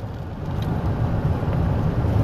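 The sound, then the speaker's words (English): Car driving over a long overwater causeway bridge across a lake: a steady, even low rumble of road and engine noise that holds at one level throughout, with no voices. “As I'm sitting here driving over the Lake Pontchartrain Causeway, the largest overwater bridge in North America and in the Western Hemisphere”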